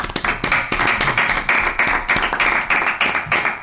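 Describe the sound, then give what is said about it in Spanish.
Brisk applause for the artists at the close of a radio interview, heard alone: quick, even claps at a steady rhythm, loud and continuous throughout. “sí, un aplauso que se merecen los artistas”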